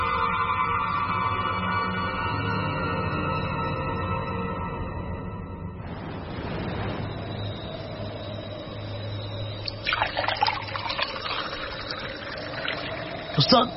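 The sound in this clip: Liquor being poured into a glass gives a soft, steady trickle of liquid that runs over a low background hum, with a few small clinks near the end.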